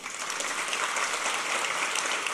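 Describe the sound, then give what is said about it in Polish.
Steady, moderately quiet applause from the audience at a formal ceremony welcoming diplomats, veterans and other guests. It is a dense, even patter of many hands clapping with no pauses. “Wielkie brawa.”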